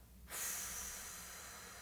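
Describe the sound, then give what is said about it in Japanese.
A long, slow exhale during a guided breathing exercise, one soft, airy hiss that starts abruptly and trails off gradually, faint and alone. “呼吸は鼻からでも口からでも両方でも OK です吐きます”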